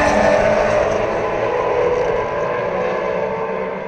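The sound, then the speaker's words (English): Race cars set off on the first lap of a race with a loud, dense roar of many engines that eases slightly toward the end. “So there they go, GLTC, first lap, or first corners of the first race.”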